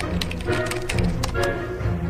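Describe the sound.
Typing on a computer keyboard: a quick, irregular run of light clicking key taps lasting about two seconds, with no voices.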